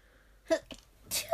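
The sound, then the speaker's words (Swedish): A person sneezes once, ending in a loud, breathy burst. It is preceded by a couple of short, quieter intakes of breath after near silence. “ursäkta, nu måste jag nysa.”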